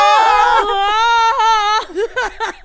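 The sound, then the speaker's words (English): A voice imitates a celebrity screaming, producing a loud, sustained high-pitched wail held for nearly two seconds with brief breaks, followed by a few shorter, wavering cries that trail off. “Of all of the things she's done, just her screaming.”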